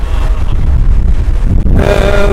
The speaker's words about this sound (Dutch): ondertussen waait het als de tering.